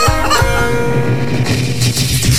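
Chickens cluck loudly and almost continuously, with busy, repeating harmonic squawks that fill the whole stretch without pauses.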